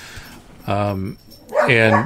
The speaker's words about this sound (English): Sorry, my dog is really upset about skateboarders and people with hats outside the fence.